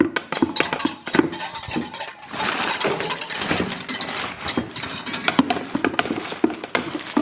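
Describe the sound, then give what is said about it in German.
Clattering and scraping as the oven is loaded in a village bakehouse: many irregular knocks, rattles and metallic clinks over a continuous low rumble, with no talk. “Das hört sich schon ein bisschen nach Backen an.”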